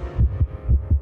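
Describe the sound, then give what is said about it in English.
Quick heartbeat thumping in low, muffled double beats. Two lub-dub pairs follow each other rapidly over a faint steady hum, with no voices. “This is what most people's heart rate sounds like when they're getting their taxes done.”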